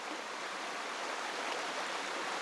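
A small Black Forest brook, only a few metres wide, flows with a soft, steady rushing babble. The water noise stays even and faint with no other sounds.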